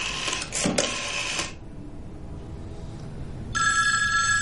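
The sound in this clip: A telephone rings after a number has been dialed: a brief patch of clattering mechanical sound is followed by a pause, then a bright, steady bell-like ring near the end.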